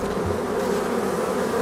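Bees buzz in a steady, dense drone inside a soundscape made with a local beekeeper. The hum holds at an even loudness from start to end, with no voices over it.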